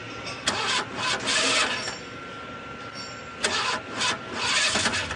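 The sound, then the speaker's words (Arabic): A car engine is being started, with two long whirring, rattling cranking attempts separated by a brief pause. “شغل السيارة.”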